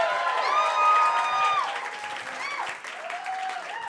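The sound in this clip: Audience applause and cheering for a contestant at a live competition show: a dense, sustained clapping wash with voiced whoops riding above it for about four seconds, easing slightly toward the end.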